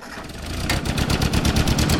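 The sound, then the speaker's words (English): A 1947 Ford tractor engine running, a steady chugging rumble of regular low thumping pulses, fairly loud and alone. “This 1947 Ford tractor is the same age as its owner”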